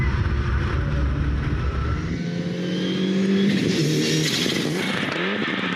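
Turbocharged rally car engine accelerating, a loud continuous roar with strong harmonics whose pitch holds fairly steady before climbing toward the end.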